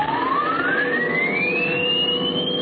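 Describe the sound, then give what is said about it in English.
A peculiar radio transmission sound: a loud, steady whistle gliding smoothly upward in pitch over a dense hiss, with no voices. “That's a very peculiar transmission sound.”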